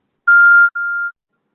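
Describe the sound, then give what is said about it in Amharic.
Telephone keypad tone from pressing the hash key on voicemail: two short steady electronic beeps heard alone, the first slightly louder and buzzier than the second. “መናገር ሲጨርሱ የመሰላል ምልክቱን ይጫኑ ወይም ቀረጻውን ለመሰረዝና ወደ ኋላ ለመመለስ የኮከብ ምልክቱን ይጫኑ።”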